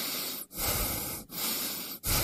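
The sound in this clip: Breathing heard in a radio advertisement about smog: a continuous hiss of air that is broken by three short pauses into separate breaths. It is moderately quiet, with no voice over it.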